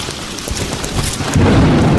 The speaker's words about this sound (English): This hail is golf ball sized.